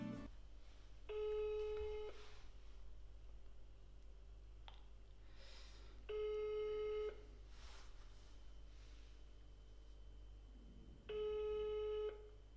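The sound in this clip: Telephone ringing on a call placed to a hotel: three separate ring bursts, each about a second long and evenly spaced several seconds apart, over a quiet low hum with nothing else in between.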